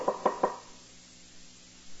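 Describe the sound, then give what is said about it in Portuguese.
Three quick, sharp knocks on a door in a fast, even rhythm, fairly faint, followed by near silence. “Eu fico imaginando o cara batendo na porta assim.”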